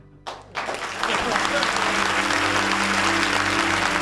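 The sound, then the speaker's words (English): Audience applause breaks out at the end of a performance as the performer says a farewell good night: a short burst of claps, then a swell into loud, dense, steady clapping that holds to the end. “Frankie humbly accepts his applause, looking directly into Dennis's eyes, then lowering his.”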